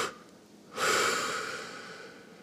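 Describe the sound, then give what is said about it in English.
Forceful exhalation during a deep-breathing exercise before pickleball: a loud, airy rush of breath that swells quickly and then trails off slowly, with no talking. “we're gonna breathe in deep, and now what we're gonna do is we're gonna blow out in two pushes.”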